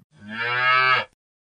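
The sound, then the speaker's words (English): A single cow moo, a long, steady, low harmonic call lasting about a second, heard alone with no talk. “She took a bottle of milk and popped the cow in her trolley too.”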